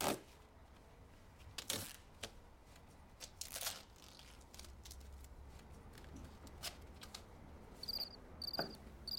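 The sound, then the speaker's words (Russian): A cricket gives a few short, faint, high-pitched chirps near the end, heard against a very quiet background of soft rustling and scattered clicks. “Она замечает сверчка.”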